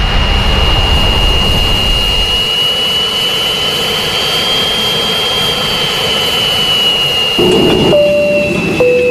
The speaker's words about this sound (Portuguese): Aperta aí os cintos e vamos decolar.